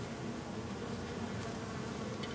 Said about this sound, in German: Im September sind hier nur noch einzelne Bienen zu sehen, denn die Imker haben ihre Kästen eingeholt.